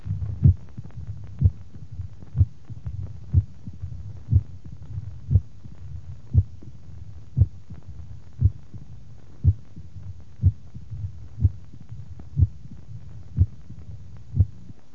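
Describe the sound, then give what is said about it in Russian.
Mitral stenosis heard at the apex: a steady run of about fifteen sharp, snapping heartbeats at an even rhythm, with a low, rumbling murmur filling the gaps between beats. “Первая запись на верхушке. Выслушивается мелодия митрального стеноза, хлопающий первый тон, диастолический шум с пресистолическим усилением.”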